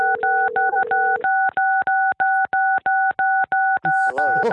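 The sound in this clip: Telephone keypad DTMF beeps as a single button is mashed over and over: many short, identical tones in a fast, uneven rhythm. A steady lower tone sounds underneath at first, and a brief voice comes in at the end.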